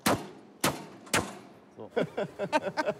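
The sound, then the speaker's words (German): Three sharp, heavy metallic thunks as a locked steel safe door is forced open by hand, evenly spaced and loud, followed by someone talking. “Dieser Tresor ist verriegelt, aber... Wenn ich Ihnen jetzt sage, ich mache den jetzt mit der bloßen Hand auf”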